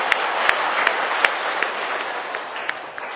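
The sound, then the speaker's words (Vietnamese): Audience applause at a Buddhist lecture, a dense, continuous wash of clapping with a few sharper single claps standing out from start to end. “Rồi hoan nghênh con luôn.”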